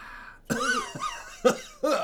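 A person coughs after breathing in weak tea from a big cup, giving four harsh, voiced coughs in quick succession after a short quiet stretch.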